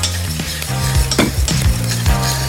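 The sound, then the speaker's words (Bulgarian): Food sizzles in a pan as a little water is added and the burner heat is turned down so it can braise. A loud, continuous hiss runs throughout, broken by a few utensil scrapes and stirring knocks, with no talk. “Намалям още котлона. Така, още малко водичка, реално, за да ги задушим хубаво.”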